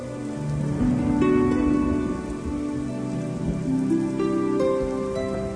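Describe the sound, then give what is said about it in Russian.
Light, warm drizzle falling steadily, a soft continuous patter of fine drops that stays at an even level throughout, with no voices. “Дождик моросил по ее пестренькой лакированной спинке.”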